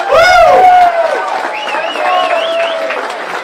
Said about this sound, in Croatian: Ljudi dragi, vi ste svi zlatni. Veliki aplauz za sve nas zajedno!